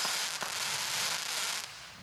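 Consumer fireworks firing in quick succession: a dense, continuous crackling hiss fills the whole clip, with a couple of sharper bursts standing out near the start and toward the end.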